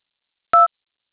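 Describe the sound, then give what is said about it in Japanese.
A single telephone keypad DTMF tone from one key press on an automated phone menu: a brief, clear two-note beep that sounds once, alone, and then stops. “もう一度お聞きになる場合は、1を、携帯電話にオンライン予約のリンクを送ってほしい方は、2を、押してください。”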